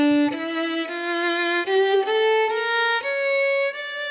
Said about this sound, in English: A minor scale sounds like this.